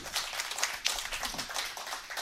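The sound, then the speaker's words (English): Applause from a Republican gathering in Norfolk County greeting a candidate for governor: a brief burst of dense, continuous hand clapping at an even level. “He said, give him a round of applause.”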